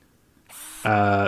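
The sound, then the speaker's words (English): A power drill loosens screws on a wall. A brief high hiss gives way to a loud, steady buzzing motor whine that lasts about half a second. “can you hand me that drill real quick, and I'll take this off the wall, or at least loosen these screws”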